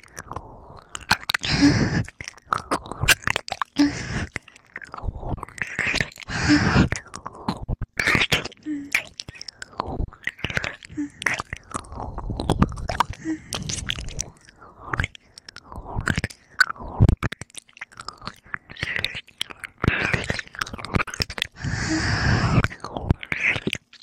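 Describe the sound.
Food being chewed up close, with steady wet, crunchy bites repeating throughout, loud and continuous, mixed with soft breathy sounds.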